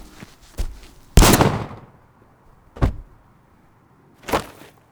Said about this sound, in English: Hey, quit running in circles like that. I'm trying to shoot you. Gotcha.